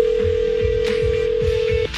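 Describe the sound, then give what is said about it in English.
A steady telephone line tone sounds as a call is placed to a contest winner. It holds one even pitch for nearly two seconds, then cuts off, over a low, shifting background bed. “the randomizer has selected a number. Let's make a phone call.”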